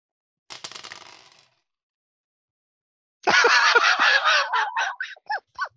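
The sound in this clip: Dice are rolled during a tabletop role-playing game. A faint, short rattle is followed after a pause by a louder, longer clatter of many quick hits that breaks into a few separate knocks as it settles.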